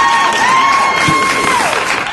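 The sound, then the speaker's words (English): Recorded applause and cheering, played from a soundboard button during an awards nominee announcement: a short, loud, even burst of crowd clapping with cheers mixed in. “I can't find the applause button. There it is.”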